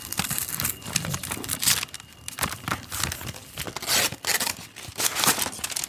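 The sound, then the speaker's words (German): Paper crinkles and tears as a golden paper envelope is opened. The crackling rustles come in many quick, uneven bursts with short pauses between them, and no one speaks. “Der goldene Umschlag. Ich mache ihn mal auf.”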